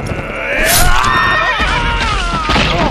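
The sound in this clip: A pony's shrill whinny as a heavy sword cuts through its right foreleg while it is ridden in a charge. It is one loud, long, wavering cry that fills nearly the whole clip.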